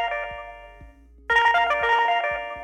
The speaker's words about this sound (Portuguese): Foi só você falar, já começaram a te ligar. É, já, o pessoal tá esperto aqui, já tocou o telefone no meio do caminho.